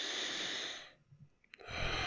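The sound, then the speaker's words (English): A person breathes in deeply with a long airy inhale that fades after about a second, followed by near quiet with a few faint small noises. “Breathe in.”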